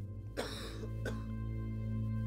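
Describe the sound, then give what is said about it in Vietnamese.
An old man coughing: two rough, throaty bursts, the first heavier and longer, over a steady low electrical hum. “thở dài, ho sù sụ”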